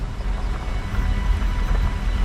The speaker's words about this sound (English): The teacher drives off.